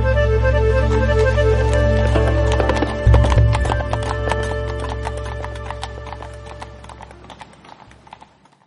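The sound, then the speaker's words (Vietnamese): Hooves of eight horses clip-clop together as a group rides off on a journey. Many brisk, overlapping hoofbeats run at a steady pace over a deep low rumble that drops away partway through, then the clopping slowly fades out. “cộng thêm nhóm 4 người Tôn Sĩ Quần, cả đám 8 con ngựa thẳng hướng Ôn Mông mà đi.”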